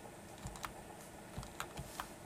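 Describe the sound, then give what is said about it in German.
Computer keyboard keys pressed while navigating an email program's lists and menus, heard as a few faint, sharp clicks spaced unevenly against a low background hum. “Jetzt drücke ich die Anwendungstaste, um ins Kontextmenü zu wechseln.”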